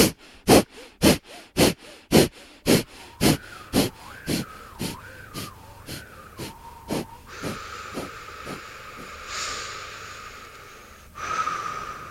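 Forceful yoga breathing exhalations at a kundalini yoga festival: many sharp, rhythmic bursts of breath at about two per second that gradually weaken, giving way to a steady hissing breath.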